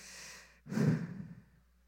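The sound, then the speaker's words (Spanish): A single deliberate breath from a person: a soft, airy inhale followed by a louder, breathy exhale that swells and then fades out, with no talking. “Take a breath.”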